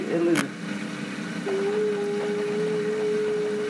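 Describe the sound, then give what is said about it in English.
A Bosch washing machine spins clothes, giving a steady motor hum with a clear, thin whining tone that sets in partway through and holds level to the end. “Sam's Bosch is extremely picky about the speed at which it spins the clothes. This thing has to have it dead on.”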